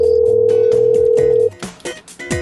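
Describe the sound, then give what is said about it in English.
A telephone rings through on an outgoing call to a restaurant: a steady buzzing tone holds for about a second and a half, then cuts off. “You're doing a very bad job at picking up phones here.”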